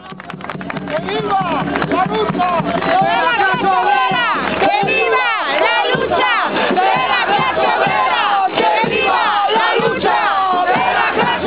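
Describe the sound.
Thousands of protesters chant at a general strike march, a dense and loud mass of shouting voices that carries on steadily throughout.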